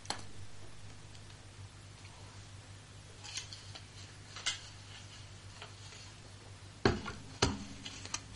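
Paper slips being stirred in a box for a prize draw, heard as faint, sparse scratchy rustles and clicks over a low steady hum, with a few sharper bursts near the end.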